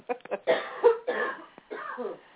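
A woman's coughing fit, with several harsh, raspy coughs coming in uneven bursts. Some are short and sharp, others longer and hacking, all close together with no speech in between.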